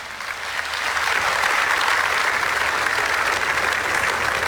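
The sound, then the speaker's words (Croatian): Outdoor audience on a town square in Požega applauding a prize-winning team at an award ceremony. The clapping swells during the first second, then settles into a thick, continuous roar of hands that holds steady. “Dajte jedan veliki pljesak za čitavu ovu ekipu.”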